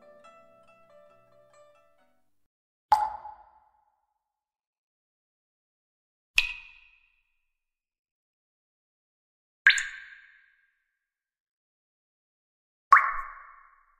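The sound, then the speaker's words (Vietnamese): Water dripping onto stone, four single drops falling at slow, even intervals. Each is a sharp, bright plop with a short ringing tail, heard alone in near silence. “Tiếng nước nhỏ xuống đá vang lên bên tai.”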